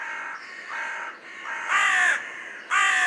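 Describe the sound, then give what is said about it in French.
A carrion crow caws several times in a row, each a harsh, raspy call. The later caws grow louder, and there are no voices. “ça, par contre, c'est une corneille”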